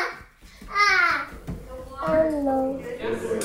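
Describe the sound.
A very talkative one-year-old baby babbles in a few high, sing-song bursts, the voice rising and falling in short vocal runs with brief pauses between.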